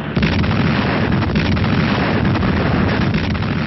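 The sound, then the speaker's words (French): Cannon and artillery fire during the 1942 Allied landings on the Moroccan beaches, heard as a dense, continuous rumble of blasts and bursts that stays loud throughout, with no distinct single shots and no voices. “Malgré une surprise totale, il fallut tirer le canon.”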